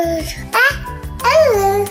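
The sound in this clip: An adult voice imitates baby babbling in a few loud, voiced syllable bursts with clear harmonics and a lilting pitch.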